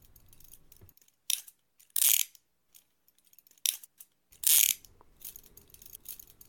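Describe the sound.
Cuffs with soft fabric linings being clicked closed around wrists give off sharp, ratchet-like mechanical clicks in a few short bursts, separated by near silence, with no voices.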